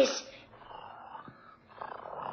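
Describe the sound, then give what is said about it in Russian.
Soft, rough purring of young cats in a fairy-tale story, opening with a louder burst before settling into a low, grainy rumble that swells again toward the end. “О, да вы уже научились мурлыкать.”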